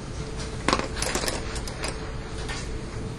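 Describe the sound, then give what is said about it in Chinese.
Audience members in a lecture take out pens to write, heard as a few sharp plastic clicks among scattered rustling and small knocks at a moderate level, with no talk. “听到大家都拿出了笔想要改的声音，对不对？”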